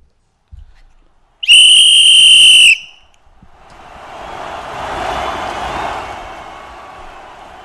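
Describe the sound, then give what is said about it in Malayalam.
A referee's final whistle at a World Cup football match: one long, loud, shrill blast of just over a second, followed by the noise of a crowd swelling and then easing. “റഫറിയുടെ അവസാന whistle മുഴങ്ങിയിരിക്കുകയാണ്.”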